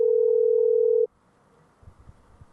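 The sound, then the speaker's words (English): A telephone tone sounds while dialing the personal phone of a bed and breakfast: one steady, even tone holds for about a second, then cuts off abruptly into near quiet with a few faint low thumps. “They better pick up. Probably calling some bed and breakfast personal phone.”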